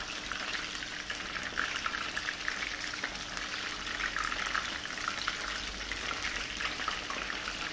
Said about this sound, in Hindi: तो हम कोशिश करेंगे फ्राई इसको हम एक एक करके करें ताकि वो आपस में जी